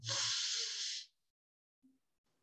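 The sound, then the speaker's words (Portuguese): A person breathes in deeply through the nose in one long, airy inhale of about a second, followed by quiet and a faint, brief sound. “Então, despertou, você vai colocar a mão na barriga e começa a puxar o ar pelo nariz, ó.”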